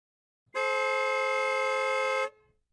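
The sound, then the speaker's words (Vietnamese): A loud truck horn gives one long, steady blast with a rich, buzzy tone. It sounds alone, holds an even pitch throughout and cuts off sharply. “Có tiếng kèn xe tải rất lớn đang lao tới.”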